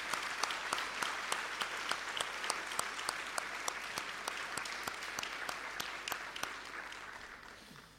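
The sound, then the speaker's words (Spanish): Applause from a church audience: a continuous bed of clapping with crisp, evenly spaced louder claps beating through it in a steady rhythm, fairly quiet overall and tapering slightly toward the end. “¿Qué les parece si le damos un aplauso a la gente de ustedes que ha trabajado así?”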